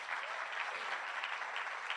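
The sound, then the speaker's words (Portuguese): Congregation applauding during a church service: a dense, steady wash of clapping that holds an even level for about two seconds, with no clear voices over it. “Sabe, quando nós entendemos, pode aplaudir o Senhor.”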